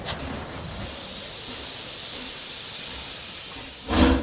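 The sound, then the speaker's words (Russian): Steam hisses from a steam locomotive as the train starts off, a faint, steady, broad hiss that runs evenly before a brief, louder burst of steam near the end. “Поезд тронулся в 5 часов. И шел без остановок.”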